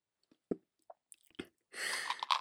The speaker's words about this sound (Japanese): ゆっくり、よく噛んで味わってくれよ。